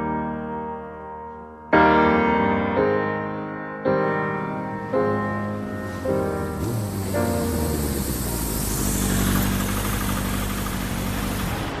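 A car engine hums steadily as the car drives, its tone stepping abruptly through a series of shifts before settling into a broader, noisier roar, with no speech.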